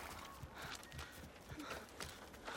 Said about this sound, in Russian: Наездница, развернув лошадь, уезжает.